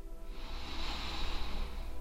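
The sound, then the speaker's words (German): A single slow inhaled breath during a guided meditation, a soft airy hiss that swells gradually and holds for about two seconds, alone and fairly quiet. “Das geht ganz einfach, indem wir gemeinsam einmal einatmen”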